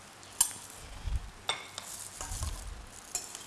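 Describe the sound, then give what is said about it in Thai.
Straw mushrooms stirred and frying in a pan, a soft steady sizzle broken by a few sharp scrapes and clinks of the utensil against the pan. “เขี่ยให้มันแยกออกจากกันนะคะแล้วก็ใส่เห็ดฟางนะคะใส่ลงไปเลย”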